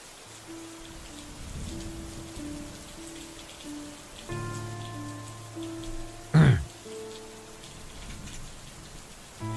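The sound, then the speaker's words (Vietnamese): Heavy rain falls as a constant soft hiss under faint, sustained low musical tones, broken once midway by a brief sharp knock. “Khi cơn mưa đã bắt đầu trở nên nặng hạt”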